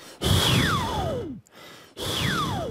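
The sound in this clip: Two long breathy exhalations from a vocal warm-up, the mouth reshaping during each so a whistling resonance glides steadily downward in pitch; a brief pause separates them, and the second breath is cut off.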